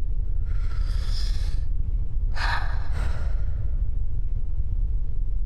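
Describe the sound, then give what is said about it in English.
A person breathes in and out, one long, airy breath followed by two shorter, sharper ones, heard alone over a low steady rumble. “You're going to take a breath, one in, one out.”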